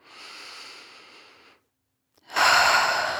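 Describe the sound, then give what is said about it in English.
Deep breath drawn in through the nose during a guided relaxation exercise: a long, soft airy breath, a brief silence, then a louder, fuller rush of breath. “Fill your lungs with nourishing air.”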